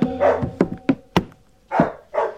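A dog barks aboard a capsized shipwreck, giving a run of loud, sharp barks. Some are short single yaps and others are longer, rougher bursts, spaced unevenly with no voices.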